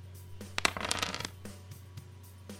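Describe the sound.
Three eight-sided dice are rolled for a tabletop game with a quick burst of clattering clicks and rattles. A few scattered taps follow as they settle, all fairly faint.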